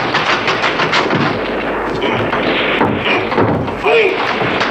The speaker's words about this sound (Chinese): 快快走，保安团的人和你们开火了。